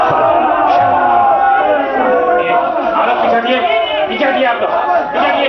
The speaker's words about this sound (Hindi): अरे अब ये नारे क्यों लगने लगे साहब?